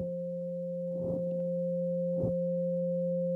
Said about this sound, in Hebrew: אנחנו גם נקשיב לתדר 528, שזה תדר האהבה והניסים, תדר סולפג'ו עתיק, תדר של טרנספורמציה, הוא אגב נשמע ככה.